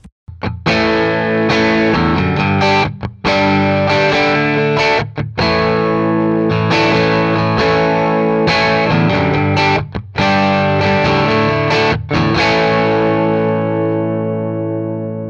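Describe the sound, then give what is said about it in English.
Distorted electric guitar chords played through 50 feet of guitar cable, 50 feet of speaker cable and a pedal board mixing true bypass and buffered bypass pedals. Thick sustained chords are broken by a few brief gaps, and the last chord rings out alone. “Now, what you're about to hear is the same thing, the same setup, plus a pedal board with a mixture of true bypass and buffered bypass”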